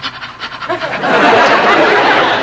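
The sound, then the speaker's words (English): A voice demonstrates rapid panting breaths through the mouth, the breathing technique for a woman in labour: quick rhythmic huffs at first, then a denser, continuous breathy rush. “Tell her to breathe very rapidly through her mouth, like this.”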